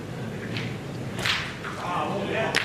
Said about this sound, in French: Qui se rattrape à la deuxième frappe, elle avait manqué. Boule un peu crochetée à la première.